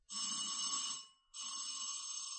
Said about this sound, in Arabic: تسمح تدق الجرس اللي جنبك؟